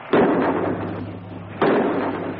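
Two rifle shots fired into the air, each a sharp, loud blast followed by a long rumbling decay, spaced about one and a half seconds apart.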